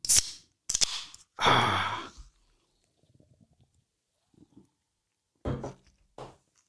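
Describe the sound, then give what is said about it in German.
A cola bottle being opened: a few short clicks and bursts, then a longer hiss of escaping gas. Quiet, faint handling noises follow, and two more short bursts come near the end. “Ich muss mir jetzt erstmal ein Bier aufmachen.”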